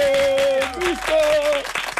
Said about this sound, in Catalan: un aplaudiment per l'Arnau París